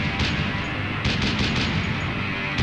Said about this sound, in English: Machine gun fire from enemy lines.